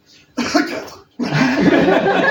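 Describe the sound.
A person blows air in two loud, breathy gusts: a short one and then a longer, steadier one.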